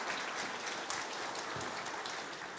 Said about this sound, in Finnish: Hei, kiitos. Kiitos oikein paljon. Aplodeja.